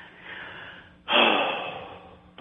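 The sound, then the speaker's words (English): A single deep breath drawn in sharply, a loud, rushing, breathy burst that swells suddenly and then slowly fades, following a quieter stretch of soft breathing noise, with no talking. “at this point you have to breathe deep breaths, at least three specifically, deep breaths. You have to breathe. Breathe.”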